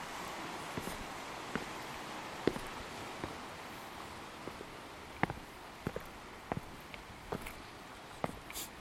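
Footsteps on a rocky coastal path: many faint, irregular crunching steps over a quiet, steady background hiss.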